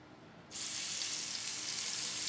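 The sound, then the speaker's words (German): Fillet pieces sear in a hot pan with only a little oil. A sharp, bright sizzle starts abruptly and then holds as a steady, even hiss. “Dann wartet die heiße Pfanne mit nur wenig Öl auf die edlen Filetstücke.”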